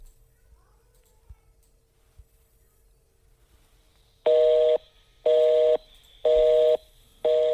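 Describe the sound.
Telephone busy signal on the Texas Workforce Commission 800 number: a few seconds of near silence, then loud, evenly spaced on-off tone pulses, four in all, the last one cut short.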